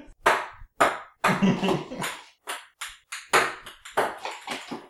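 A ping pong ball bouncing during a beer pong game makes many sharp, bright taps and clacks in an irregular rhythm, with brief gaps between the hits.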